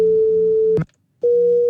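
Two close pure tones sound together as one steady, loud electronic tone with a faint lower hum. It cuts off for just under half a second and then resumes unchanged.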